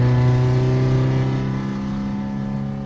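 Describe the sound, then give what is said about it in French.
A cold car engine revs high, held back to about 6000 rpm, making a loud, steady harmonic drone that eases off only slightly toward the end. “Pour le moment, on va tirer que 6000 tours parce que la voiture est froide.”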